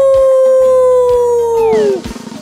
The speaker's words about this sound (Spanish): ¡Es el lobo! ¡Hola, lobo!